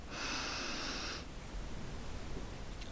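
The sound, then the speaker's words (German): A single deep breath drawn in during a guided relaxation exercise, a soft hissing inhale lasting about a second, then quiet background hiss. “Also machst dir mit mir gemeinsam einen Moment gemütlich und atme einmal ganz tief ein.”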